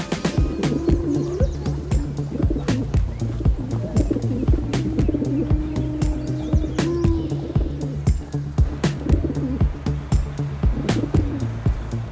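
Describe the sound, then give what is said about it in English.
Pigeons coo during a courtship display, a male strutting with inflated throat; low, throaty cooing rolls on steadily throughout, with scattered sharp clicks and taps over it. “It's time for pigeons to strut their stuff.”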